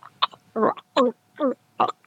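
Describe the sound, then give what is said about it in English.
Wet gurgling throat noises made by pushing saliva through thick tonsils: several short, voiced, slurpy bursts in an even rhythm, fairly faint with quiet gaps between them. “I'm just pushing saliva through my tonsils.”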